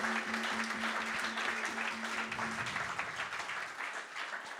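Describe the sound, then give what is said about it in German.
Applause from a church audience, a soft, steady wash of many hands clapping together. A low sustained tone runs beneath the clapping for the first half, then the applause continues on its own. “Why don't you put your hands together for Jesus? Einen Applaus für Jesus.”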